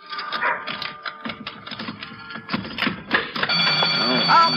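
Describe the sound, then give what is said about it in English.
Burglar alarm in a store starts ringing after people talk, a continuous, loud, buzzing ring that holds a steady tone until the end. “Oh. I always forget that burglar alarm. Here, let me get my other key and turn that thing off.”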